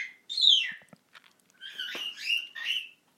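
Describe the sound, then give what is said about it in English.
An African grey parrot makes a commonly learned mimicked noise: a high sliding squeak, then a brief pause, and a run of shrill chirps and whistles. “She says that must be a really easy noise for a grey to make, because she does it all the time, and a lot of greys I've met do it, so it must be a common noise that they learn very quickly.”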